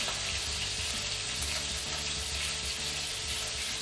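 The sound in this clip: Chicken pieces fry in a pan, already browned and being turned, giving a steady, dense hiss and crackle of sizzling fat that holds at an even level throughout, with no voices.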